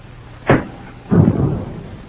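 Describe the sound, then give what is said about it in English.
A tear gas bomb tossed in through a door: a sharp, heavy thud followed about half a second later by a longer, rumbling burst that lingers and slowly dies away, with no voices. “I got a tear gas bomb here. I'll toss it in through the door.”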